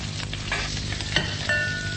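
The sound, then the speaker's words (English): Roast pork fresh from the oven sizzles with a quiet, steady crackle, broken by a few light knocks. “Here's the pork, fresh from the oven. Mmm, smells good.”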